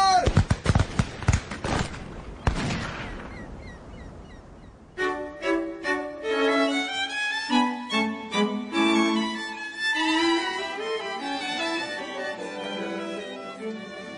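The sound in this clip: Guns fire on command in a rapid string of sharp bangs, ending in one heavier blast, before a melodic passage starts.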